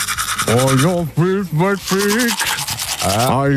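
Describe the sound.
Teeth being brushed, with steady scrubbing and rubbing strokes while a muffled voice hums a melody through the brushing.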